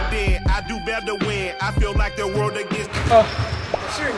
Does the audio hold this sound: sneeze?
no